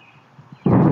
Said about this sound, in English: It was the boom heard far and wide across the Washington, D.C. region, disrupting a Sunday music rehearsal and sending people and pets running for cover.